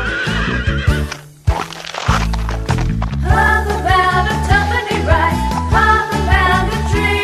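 A horse neighs in a children's scene, its wavering whinny mixed into loud, continuous music with a steady bass line and bright chords, which drops out briefly near the middle before resuming.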